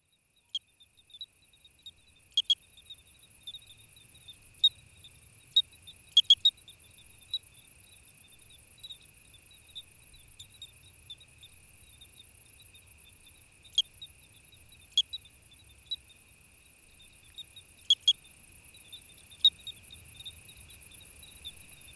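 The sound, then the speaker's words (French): Bell crickets chirr steadily through an evening in late August, around 9:30 pm, on a high plateau at 1,000 metres. A continuous shrill, high-pitched drone is punctuated by many brief, sharp ticks at irregular intervals, with no voices. “On peut par exemple écouter l'une des pièces les plus sobres qu'il ait publiée dans ce podcast, intitulée « Soirée au grillon clochette »”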